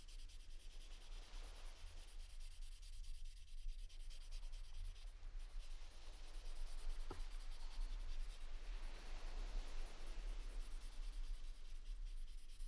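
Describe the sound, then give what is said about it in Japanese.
Steady, scratchy rubbing of a nail file across fingernails, a continuous quiet grinding that holds an even level throughout with no talk. “ヤスリなどで爪を削るとき、爪が薄い方は摩擦熱で熱く感じることがあります。”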